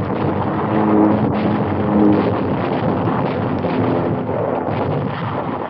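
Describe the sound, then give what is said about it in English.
The battleship Tirpitz fires its 15-inch guns amid bomb explosions in Tromsø Fjord, Norway, a loud, continuous, muffled roar with slight swells and no distinct single blasts. “The Tirpitz is mortally hit, but replies with everything, including 15-inch guns, in this climactic battle of Tromso Fjord in Norway.”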